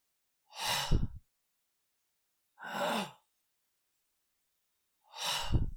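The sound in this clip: A voice imitating labored breathing: three heavy, drawn-out breaths spaced about two seconds apart, the first and last ending in a low, rasping catch.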